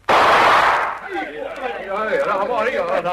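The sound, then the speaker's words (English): A single loud gunshot, fired as a warning across the bow of a dinghy, bursts at the very start and decays over nearly a second before voices begin talking. “Send a shot across the bow of the dinghy”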